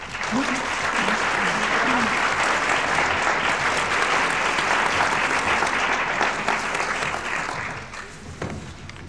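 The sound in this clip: An audience applauds to welcome a speaker at a theology talk, a dense, steady clapping that holds for several seconds and then thins and fades at the end.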